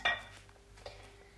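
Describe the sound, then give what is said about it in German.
A lid is lifted off a frying pan, giving a sharp metallic clatter at the start and a fainter clink a moment later over a quiet, steady hum. “Jetzt Deckel von der Pfanne nehmen”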